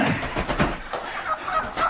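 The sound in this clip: Chickens cluck and squawk as a bird is picked out for slaughter, a busy, continuous flurry of fowl calls with uneven bursts of loudness and no clear talk.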